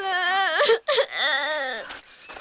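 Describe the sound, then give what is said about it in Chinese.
A child cries in long, wavering, high-pitched wails, two drawn-out sobs separated by a brief catch of breath, loud and alone. “好了好了，不哭不哭了啊！”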